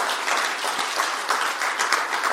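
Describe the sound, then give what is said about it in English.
Audience applause for the friends and family who came to support someone, a dense, steady wash of clapping held at an even level from start to end. “Can we give a round of applause for anybody who's here to do that?”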